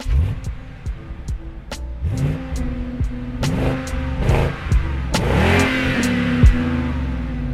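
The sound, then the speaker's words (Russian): Car engine revving as the vehicle drives off, with several rising revs that climb and drop back as it accelerates. The throbbing drone is loud and mid-pitched. “Сейчас за тобой заедем. Да, конечно. Поехали за Саньком. Поехали.”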